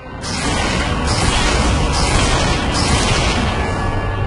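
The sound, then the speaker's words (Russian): Heavy cannon fire forms a dense, loud, continuous rumbling roar that holds steady throughout, with no separate shots standing out. “Этот шум. Пушки.”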